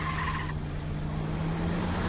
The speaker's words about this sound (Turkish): Araba devam etti.